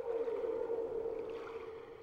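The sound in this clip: Humpback whale song: a loud, sustained, low moaning tone that holds steady for about two seconds, with no talking over it.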